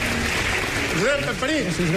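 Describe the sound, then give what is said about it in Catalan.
A theatre audience applauding mid-performance: steady, dense clapping through the whole clip, with a voice speaking over it in the second half. “El públic es posa a aplaudir i els actors surten fins davant de l'escenari per fer-li una reverència.”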